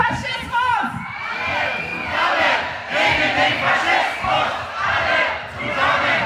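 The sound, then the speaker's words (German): A protest crowd at a trade union rally against social cuts shouts and chants together, loud massed voices swelling in repeated surges with cheering mixed in. “wir müssen auch einmal alle rufen, alle zusammen gegen”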